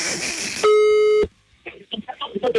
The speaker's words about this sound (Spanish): A ver si nos contesta. Ay, está marcando.